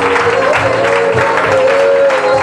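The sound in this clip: Congregation applauding and acclaiming during worship, loud, steady clapping mixed with cheering voices, sustained across the whole stretch.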